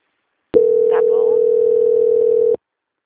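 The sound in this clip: A steady telephone tone sounds while a call is being transferred, one unbroken mid-pitched note of about two seconds that starts and stops abruptly, with a faint voice briefly underneath.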